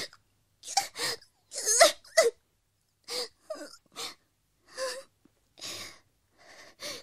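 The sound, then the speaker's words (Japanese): A woman sobs in short, broken bursts, gasping and wailing breaths separated by brief silences, many uneven cries across the stretch; no speech. “おろろ、泣いちゃったよ。”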